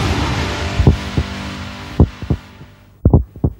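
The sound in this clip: Heartbeat sound effect used as a time-signal cue: several deep, low thumps, loosely grouped in pairs, with a steady hum that fades out partway through.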